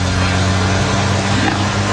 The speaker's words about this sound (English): That was Julia Roberts teaching Richard Gere how to drive a stick in the movie, you know, Pretty Woman.